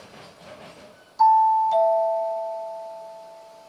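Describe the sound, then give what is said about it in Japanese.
A two-tone chime on a Japanese railway station platform as a train approaches track 6: a higher note, then a lower one, each ringing out with a long, slowly fading tail over faint background noise. “まもなく6番線に列車が参ります。危険ですから黄色い線の内側にお下がりください。”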